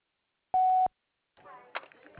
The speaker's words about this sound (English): Please leave a message at the beep